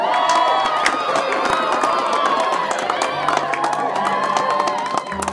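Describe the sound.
An audience cheers, whoops and claps loudly as a singer-songwriter comes on stage to perform one of her own songs; the dense, continuous roar of shouts and applause holds steady, easing slightly at the end.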